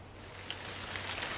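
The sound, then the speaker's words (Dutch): Steady rain pours from a small cloud, a soft continuous hiss of falling drops with a few brief splashy accents, fairly faint and with no voices. “Het regent!”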